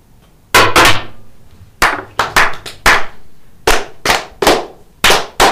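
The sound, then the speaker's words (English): A ceremonial firing party fires during a brotherhood toast: many sharp, loud cracks in ragged clusters rather than in unison, each with a short decaying tail, over near silence. “Ready. Ready. Ready. Aim. Aim. Fire. Good fire. Fire all. Together, brothers.”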